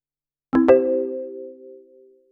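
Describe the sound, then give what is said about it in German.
Electronic beep from a travel agency's answering machine right after its recorded greeting: two quick onsets, then a sustained ringing tone that slowly fades over about two seconds. “Immer diese Anrufbeantworter.”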